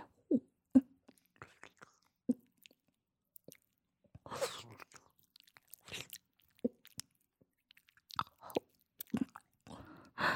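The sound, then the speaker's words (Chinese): Chewing and swallowing while taking bitter herbal medicine, with soft wet mouth clicks, small crunches and gulps arriving in irregular bursts separated by silence, faint and close. “现在就是在吃药呢。”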